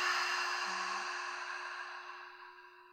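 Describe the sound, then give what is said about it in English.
A long, deep exhale through an open mouth, a soft breathy rush that slowly fades over about three seconds above a faint steady hum. “Open the mouth and exhale. Do that again. Nice long breath in. Big breath out.”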